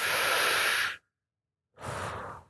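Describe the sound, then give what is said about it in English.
An audience takes a deep breath together, a loud, airy rush of many people inhaling for about a second, then a short silence and a softer shared exhale. “On the count of three, I want to invite us to all just take a deep breath.”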